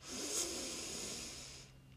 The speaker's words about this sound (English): I just want to take a deep breath here. Inhale